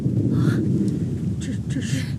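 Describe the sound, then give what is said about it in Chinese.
Thunder rolls in a continuous deep, heavy rumble that stays loud throughout, with a few brief, higher crackling bursts rising above the low roar. “这是打雷了。”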